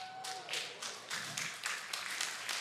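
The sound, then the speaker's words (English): A church audience claps in loose, uneven bursts, each a soft smack of many hands, repeating many times at a fairly regular pace and kept faint overall. “If that happened at your house, you'd be clapping a lot better than that.”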